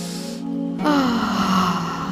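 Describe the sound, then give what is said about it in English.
A deep cleansing breath, drawn in as a long, airy inhale of about a second and a half, with a soft steady tone sustained underneath. “Stretch. Give your body a stretch. Take another deep cleansing breath.”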